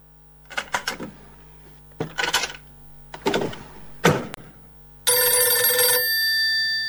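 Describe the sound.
A telephone bell rings in a long, loud, steady burst near the end, after a few short, sharp clattering bursts separated by brief pauses.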